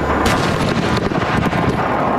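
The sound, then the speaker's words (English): Fireworks explode as a fire spreads into a new section of them: a loud, dense, continuous roar packed with many rapid cracking bangs and booms, with no pause throughout. “a large explosion rocked the scene as the fire reached a new section of fireworks.”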